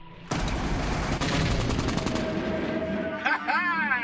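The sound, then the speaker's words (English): Rapid machine-gun fire from a World War II aerial dogfight film scene, with an all-black air unit fighting German planes, forms a loud, dense, rattling roar of fast bursts that continues for about three seconds before a brief voice is heard. “its dazzling special effects recreate dogfights between the all-black air unit and their German enemies.”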